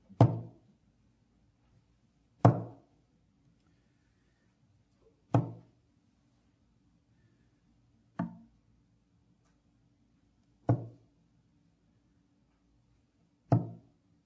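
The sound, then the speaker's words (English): Hollow wooden knocks of a waterlogged body bumping against the side of a wooden ark: six sharp, separate thuds spaced a few seconds apart, each quick to fade, over a faint low steady hum. “That's the noise of a waterlogged baby bumping up against the ark.”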